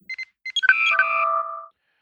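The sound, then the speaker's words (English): A sci-fi communicator hailing effect: several short electronic blips, then layered, chiming, warbling tones that sustain and fade away. “And for a second time this week, open hailing frequencies.”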